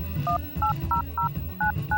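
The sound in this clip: Touch-tone dialing on a cell phone to place a call: six evenly spaced two-note electronic beeps, clear and fairly loud, over a low rumbling background.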